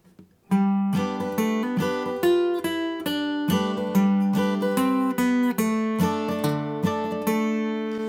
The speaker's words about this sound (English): he's going to be playing the melody on the bass end and supporting that with strumming the chord. It'll sound something like this.